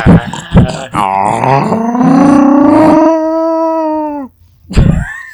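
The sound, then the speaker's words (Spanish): A voice imitates a bear growling with a long, loud, drawn-out cry. It rises at first, holds steady, then cuts off, and a short vocal burst follows. Spanish-speaking people talk around it. “¿Cómo lo hacen los osos? Pues gruñen, ¿no?”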